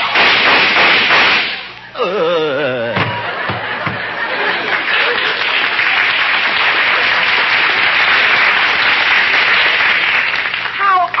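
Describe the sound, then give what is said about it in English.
Gunshots in a radio drama performed before a live audience: a loud burst of cracking shots at the start, then sustained applause from the crowd with some voices mixed in. “Some of those shots came from the audience.”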